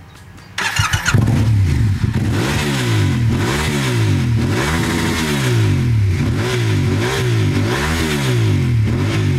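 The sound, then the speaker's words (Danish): A Yamaha motorcycle engine starts with a burst of noise, then revs repeatedly in loud, steady rising-and-falling cycles, with no voices. “Verden rundt har han kørt. Først på Honda, og så på Yamaha. Den han kører på nu, det er den her.”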